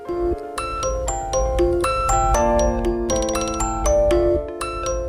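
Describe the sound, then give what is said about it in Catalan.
Theme tune of a TV medical drama: an instrumental melody of sustained tonal notes with bright chiming accents. It plays steadily and fairly loud, with no voices. “I això que sona, molts la reconeixereu, és la sintonia d'Anatomia de Grey”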